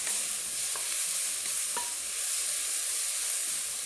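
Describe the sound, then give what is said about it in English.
Tomatoes sautéing in a pan, about fourteen of them, give a steady, loud sizzling hiss with a few faint clicks of stirring. No one speaks. “This was a total of like 14 tomatoes, all right, so we could do even more. All right, let this saute a little bit more.”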